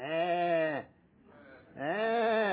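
Sheep bleating: two long, loud, wavering bleats separated by a short quiet gap, each rich and nasal with a slight quaver.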